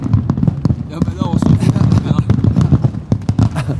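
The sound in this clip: Fireworks go off in many sharp, crackling bursts and pops during a celebration, coming in quick irregular succession beneath people talking.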